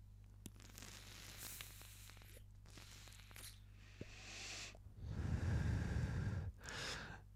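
Air is drawn through a vaporizer whose coil head runs at about 11 watts. A faint, airy hiss with light crackle leads into a louder breathy rush, then a shorter breath, all quiet.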